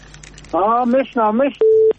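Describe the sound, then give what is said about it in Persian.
A telephone call connecting on a call-in line: a voice speaks briefly, then a single short, steady, mid-pitched beep sounds clearly. “یک تماس داریم از شنونده ما.”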